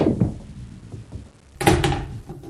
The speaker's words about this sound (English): and he just sank the eight ball to win the game and the $10,000.